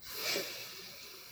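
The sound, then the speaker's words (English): A single deep breath taken during a grounding exercise, a soft breathy rush of air that swells early and then slowly tapers away, heard alone. “So inhale, exhale, inhale again,”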